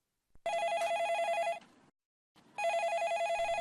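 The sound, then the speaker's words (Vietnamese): A telephone rings with an incoming listener call on a phone-in program: two bright, steady trilling ring bursts, each just over a second long, separated by a short pause, with no talk over them. “bây giờ chúng ta lại tiếp tục nhận được cuộc gọi từ thính giả”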